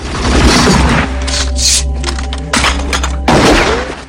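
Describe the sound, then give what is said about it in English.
Rifle gunfire in a cemetery fight scene: several loud, sharp shots burst through a dense, continuous background, with brief quieter gaps between the blasts. “Elijah grabs the rifle and shoots Zanan point blank. He opens fire on Van Cleef and Fouchon, who duck for cover.”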